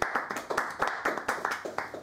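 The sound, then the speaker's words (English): Hands clapping in a quick, steady rhythm: one person's claps repeat evenly and fairly loudly, with no talk over them. “I got to clap for that one, man. That was really good.”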